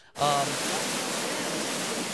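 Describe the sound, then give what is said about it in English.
Powerful rushing water at the headwaters of the Jordan River near the ancient city of Dan: a dense, steady roar that starts abruptly and holds at an even loudness. “they took us up north to where the headwaters of the Jordan began. There are three rivers that come in near the ancient city of Dan, and we have a little video footage that I just wanted to show you.”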